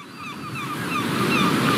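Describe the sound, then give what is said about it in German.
Sea waves wash along the North Sea coast in a steady, broad rushing roar that swells slightly louder over the short stretch. “Die Nordsee. Am Horizont fahren Schiffe, Windräder von Offshore-Anlagen drehen sich.”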